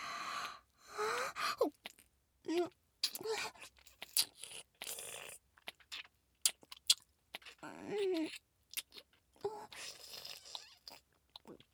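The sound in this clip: Wet mouth sounds of a vampire role-play biting and drinking blood: quiet, intermittent bursts of sucking, smacking and crunchy nibbling, broken by breathy gasps and short silences.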